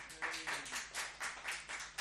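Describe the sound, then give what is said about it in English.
Faint audience clapping in a steady, even rhythm, a string of about eight evenly spaced claps. “So, mandatory homosexuality in Northern Ireland. Clap if that's your favourite.”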